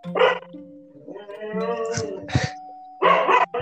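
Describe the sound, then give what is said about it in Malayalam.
A dog barks in a few sharp, loud bursts, with a sustained chime-like tone running between them. “പട്ടി പറിക്കും ഇവിടെ പട്ടിയുടെ ഒച്ച ശല്യം ഉണ്ട് ഇനി ഉണ്ടാവില്ല എന്ന് വിശ്വസിക്കാം”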